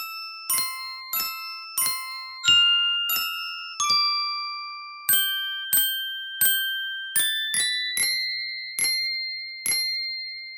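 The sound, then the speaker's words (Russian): Ringing notes from an icicle instrument, a homemade winter chime, struck one at a time in a melodic run: bright, bell-like tones that shift in pitch, each chiming sharply and then decaying, with many strikes over the passage. “Что это? Сосулькофон – уникальный зимний инструмент.”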